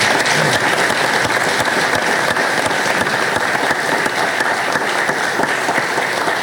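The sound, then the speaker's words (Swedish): Audience applause: dense, continuous clapping from a crowd, loud and even from start to finish, with no voices. “Jag tycker de kan få en applåd till.”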